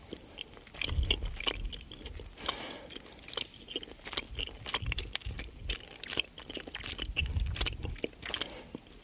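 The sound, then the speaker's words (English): Close binaural ASMR chewing of a cola bottle gummy sweet: many sticky bites and squelching, crunchy chews in an irregular rhythm, fairly quiet, with soft mouth noises between them. “I've got a tiny ambisonic microphone set to binaural mode and I'm now going to eat a cola bottle.”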